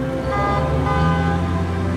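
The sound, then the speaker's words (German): Tuned cars with bright flashing lights and high-tech stereos pulling up in a line at an outdoor arts-festival event, heard as a loud, steady, horn-like droning tone layered with engine rumble, unbroken throughout. “7 Autos fahren hintereinander vor. 6 davon sind, wie man landläufig sagen würde, aufgemotzt, getuned, wie es korrekt heißt”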